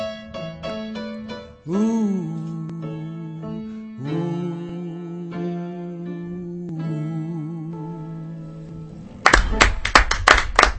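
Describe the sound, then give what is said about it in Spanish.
A live audience applauds and calls for an encore at a rock performance: sustained musical tones end abruptly, and loud, ragged bursts of clapping break out. “El público pide otra, pide otra.”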